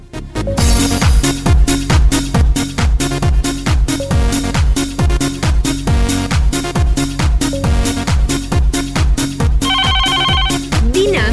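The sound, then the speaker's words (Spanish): A telephone rings with an incoming call to a radio studio, a loud looping ringtone with a steady pulsing beat that keeps going throughout, with no talk. “me encuentro a través del panel telefónico para recibir la primera llamada”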